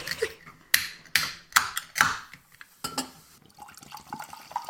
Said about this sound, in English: Serve chilled, crack it and glug.